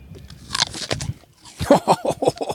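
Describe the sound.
Crisp, loud crunches of someone biting into a washed apple, a few sharp bites followed by a quick run of crunchy chewing.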